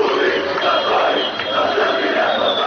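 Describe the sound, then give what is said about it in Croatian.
Football fans chant after the Armenia versus Albania national team match. A dense crowd of voices roars in unison, sustained and somewhat muffled, with no pause. “Uz osude skandiranja navijača nakon utakmice između reprezentacije Jermenije i Albanije, većina političara iz Bujanovca i Preševa ističe da ovo što čujete nije slika atmosfere i odnosa među tamošnjim stanovništvom”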